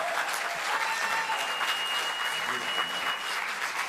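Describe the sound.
Audience applause at a church service welcomes a pastor as he comes up to preach: a steady, dense wash of clapping that holds at an even level throughout.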